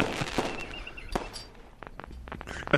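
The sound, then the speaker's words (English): Bombing explosion sound effect played by mistake: a fairly faint run of sharp crackling pops and dull thuds of uneven loudness, with a louder burst at the end. “Sorry, wrong button. Is that us bombing the communists now?”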